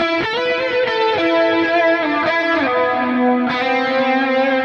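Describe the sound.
An electric guitar runs through a dual diatonic pitch-shift effect, giving sustained, stacked harmonized tones. The chord slides through several note changes in a continuous, steady, slightly gritty wash.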